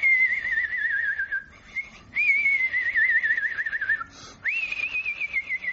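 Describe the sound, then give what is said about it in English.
A human voice imitates the whistle of a falling shell: a few long, high, wavering whistles, each drifting slightly downward in pitch, separated by short breaks and heard alone without talk. “they had a little tick on them that made them whistle as they came through the air. That was my first shell. You do an impression, I believe, of the sound. Well, they came down like”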